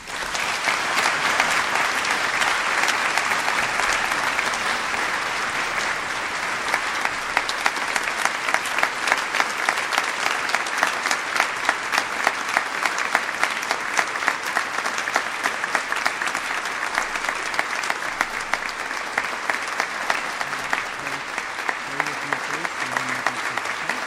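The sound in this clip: An audience applauds to welcome a speaker to the stage. The clapping is loud and sustained for over twenty seconds and turns into crisper, more distinct claps in its later part.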